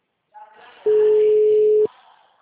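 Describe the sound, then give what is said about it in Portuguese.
A single steady telephone call tone from a number that is not answering, one loud flat beep about a second long, with faint murmuring just before it. “Gente, fazer uma ligação aqui, tá? Grave seu recado agora. The number is not answering.”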